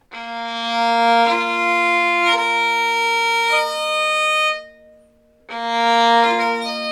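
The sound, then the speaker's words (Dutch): Open strings of a violin in scordatura tuning sound as long bowed tones, with strings joining in overlapping pairs. The bowing stops briefly and then resumes with a fresh sustained chord. “die andere viool die in die scordatura, deze, want dus je kan per stuk een andere stemming, bij wijze van spreken, kiezen. Ja. Maar deze is toevallig gestemd en die klinkt zo.”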